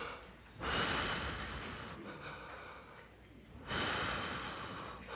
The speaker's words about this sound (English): take a big breath. A couple more.